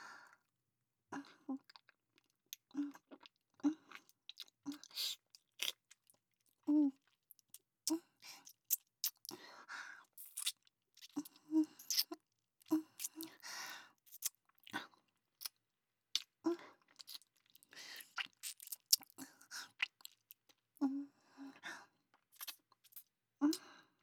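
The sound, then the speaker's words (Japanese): Soft, wet kissing smacks repeat irregularly, many brief quiet pops separated by short pauses of silence. “お返しに私からも口づけをさせていただきます。”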